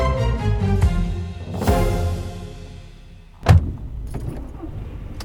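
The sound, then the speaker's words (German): A car rumbles along with a steady, low engine drone. A single dull thump lands partway through, and the road noise carries on after it. “Nach ihrem Besuch in Torgau fahren Lina, Ben und ihre Eltern zurück Richtung Heimat.”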